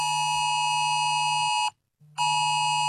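A mobile phone emergency alert tone blares as a loud, harsh, steady multi-pitched buzz, cuts out for a brief moment of silence, then resumes at the same strength.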